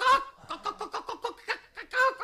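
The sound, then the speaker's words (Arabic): A hen clucks in a quick, rhythmic run of short, bright clucks, with a louder squawk at the start and again at the end. “مولانا السكسك فرخة بتوكوك”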